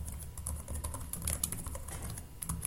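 Rapid typing on a computer keyboard while editing a LESS stylesheet: many light, fast key clicks in an uneven but steady stream, with no talk over them.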